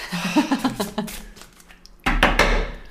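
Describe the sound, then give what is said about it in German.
Playing cards shuffled by hand for a card reading: a short burst of dense, papery rustling and riffling in the final second, after quieter handling sounds. “Und jetzt mische ich die Karten.”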